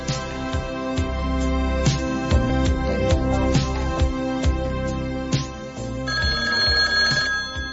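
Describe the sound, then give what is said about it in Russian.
A telephone rings in a steady, continuous trill of rapid metallic pulses, loud and with no voices. Its tone shifts slightly near the end. “И действительно, без четверти 10 телефон зазвонил.”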